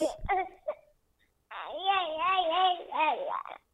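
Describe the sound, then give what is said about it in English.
A baby babbles: a few short, scattered vocal sounds, a brief pause, then a long run of sing-song cooing and gurgling with wavering, bobbing pitch, fairly soft and with no other voices. “They literally go goo goo gaga. Mm-hmm. They truly do the cartoon thing.”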